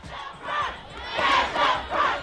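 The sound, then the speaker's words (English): High school students and parents protesting over school funding in Baltimore. Their massed voices shout and chant in a few rhythmic, swelling bursts, loud and unbroken by any single speaker. “That is the sound of high school students and parents protesting over school funding in Baltimore.”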